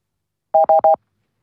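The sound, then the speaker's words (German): Three short beeping tones sound as a telephone number is dialed, each tone brief and the same pitch, spaced evenly in quick succession and followed by silence. “Wählen wir also hier die Nummer zum Glück.”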